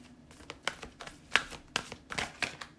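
Cards from a John Holland Psychic Tarot deck are shuffled and handled, making many quick, soft riffling clicks and flutters in uneven bursts.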